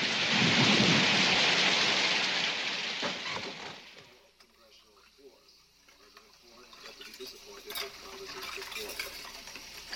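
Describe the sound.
Heavy rain and rolling thunder from a sound effect roar loudly and steadily for about four seconds, then drop to a much quieter, sparse tail with faint scattered sounds.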